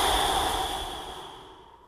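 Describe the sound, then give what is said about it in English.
A long, complete exhale through the mouth at the start of a breathing exercise, a soft airy rush that fades steadily over about two seconds, with no talking over it. “So first, exhale completely through your mouth.”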